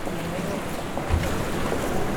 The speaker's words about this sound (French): Et la mer. Voilà la mer. Et quelle mer! Très agitée,